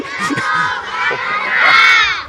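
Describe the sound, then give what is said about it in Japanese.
A crowd cheers and shouts, a loud, sustained roar of many voices with higher-pitched cries mixed in that swells toward the end. “あの声援の一部はヤンキマにも向けられているということなんでしょうね。”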